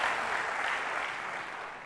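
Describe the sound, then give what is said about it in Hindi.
An audience applauds with a steady wash of many hands clapping together, fairly soft and even throughout, tapering slightly at the very end. “जोर से ताली बजाइए, सब जोर से ताली बजाइए”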